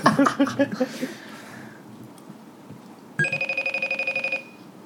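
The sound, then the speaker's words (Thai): An iPhone ringtone plays as a rapid run of many bright, evenly spaced tonal pulses. A separate short burst of tones comes first and fades away. “นี่คือไอโฟนนะครับ”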